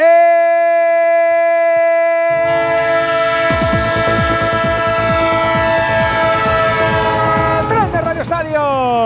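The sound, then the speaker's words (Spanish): Train horn tones held steadily as a rolling rumble builds beneath them, joined by a rhythmic clickety-clack of wheels on rails that continues loudly to the end. “El tren de Onda Cero, el tren del domingo, el tren del fútbol.”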